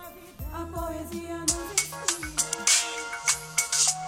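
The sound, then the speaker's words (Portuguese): A mobile phone ringtone announces an incoming call, a bright electronic melody of short repeated notes in a steady rhythm with chime-like accents, heard alone without talk. “Nossa, a Nivane me ligando, mano. Melhor atender, né?”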